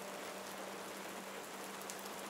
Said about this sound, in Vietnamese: Trên trời mưa vẫn trút ào ạt xuống.